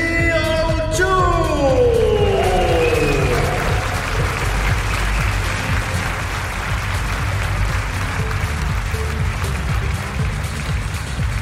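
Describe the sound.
Loud, sustained applause from an audience at a fashion show as the collection's signature dress appears. Dense, continuous clapping fills the whole stretch, with a voice heard over the opening seconds.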